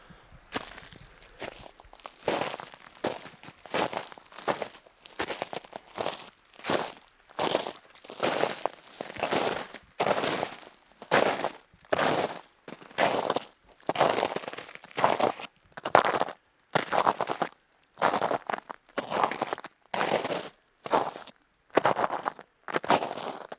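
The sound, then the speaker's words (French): Footsteps crunch on ice and snow after leaving a small stream, many brittle, crackling steps in a steady walking rhythm, loud and alone with no talk. “je quitte ce très joli filet d'eau pour retourner sur la zone de glace et de neige.”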